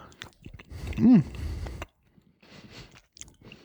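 Chewing a small, cut piece of firm cheese: moist crunching and squishing bites in a fairly loud burst, followed by quieter, sparse chewing sounds.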